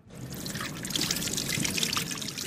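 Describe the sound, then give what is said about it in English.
Tap water runs steadily as hands are washed at a hospital trauma center during an infection-prevention demonstration, a soft continuous trickle and splash with no speech. “Okay, first of all, you wet your hands, then with a little amount of soap.”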